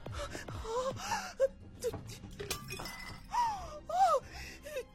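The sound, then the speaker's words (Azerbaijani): A glass bottle being broken, with sharp clinks and a brief shattering amid gasps, moans and wailing voices. “Mənim üçün şişə sındırırsan.”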